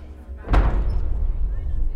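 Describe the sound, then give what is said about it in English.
A heavy castle gate slammed shut: one sharp, loud impact with a deep booming thud, followed by a low rumbling tail that lingers to the end. “This done, they slam the gate shut and lower the lock bar.”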